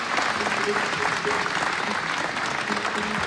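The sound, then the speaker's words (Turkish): Dense applause from an audience for a folk music choir and its conductor, a steady wash of clapping that stays even in loudness from start to finish. “Efendim koromuzu ve şefimiz Mehmet Erenleri bir kez daha alkışlıyoruz.”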